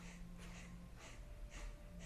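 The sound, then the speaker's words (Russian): Faint kapalabhati yogic breathing: a series of short, forceful breathy exhalations repeating in a quick, steady rhythm, with no talk. “И в какой-то момент вы почувствуете, что вы действительно можете очень-очень долго дышать вот такой капалабхати.”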